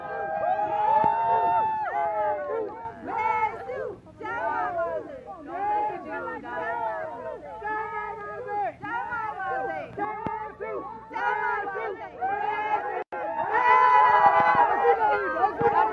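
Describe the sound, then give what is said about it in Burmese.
A crowd of Burmese and Americans shouts and cheers a welcome outside Blair House as Aung San Suu Kyi arrives, many overlapping voices calling out loudly with brief dips and a final louder surge. “ကျမတို့ VOA ရုံးချုပ်နဲ့တိတ်မဝေးလှတဲ့အမေရိကန်သမ္မတရဲ့ AK ဟာ Blair House ကိုဒေါ်အောင်ဆန်းစုကြည်ရဲ့ရင်တန်းရောက်ရှိလာချိန်မှာတော့မြန်မာနိုင်ငံဘွားတွေရောအမေရိကန်တွေကပါအော်ဟစ်ကြိုဆိုခဲ့ကြပါတယ”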